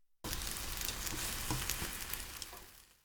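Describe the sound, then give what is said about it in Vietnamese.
Omelette egg mixture sizzles as it goes back into a frying pan to cook its other side, a bright hiss that starts abruptly after a moment of quiet, then crackles steadily and eases slightly toward the end. “Thì tiếp theo, cho phần trứng vào chảo trở lại để làm chín cái mặt. còn lại.”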